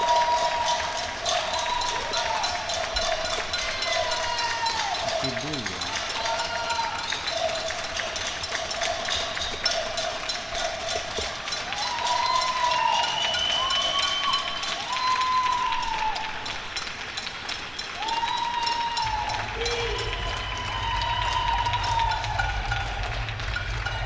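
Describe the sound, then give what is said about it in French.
Neighbours applauding from their homes during the March 2020 lockdown: a continuous wash of clapping lasting the whole stretch, with whistle-like tones rising and falling over it. “ces applaudissements et je vous propose de les écouter tout de suite.”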